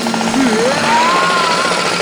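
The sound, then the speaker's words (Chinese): Loud power-tool noise comes from a renovation crew working next door before dawn. A rapid rattling opens, then a whining tone climbs and holds over a steady mechanical roar. “特别要感谢我们家隔壁的装修队，因为他们天还没亮就……”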